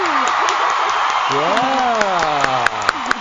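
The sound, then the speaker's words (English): Audience clapping and cheering welcome a woman arriving as a show guest. A loud, steady crowd roar carries a voice speaking over it, with a few sharper claps near the end. “Let's put our hands together for the beautiful Miss Maya Hill.”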